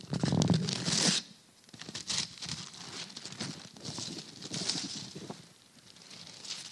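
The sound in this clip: Wrapping paper tears as a wrapped present is opened, with a loud ripping burst at the start followed by several softer rips and crinkles.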